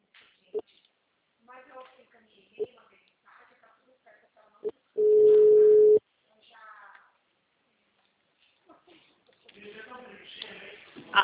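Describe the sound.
Telephone tone after a dropped call: one steady, mid-pitched beep lasting about a second, sounding alone between stretches of people talking before and after it.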